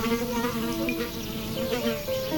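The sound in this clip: A horsefly buzzes continuously in a low, droning hum. Its pitch wavers gently up and down as it hovers, with no other sounds around it.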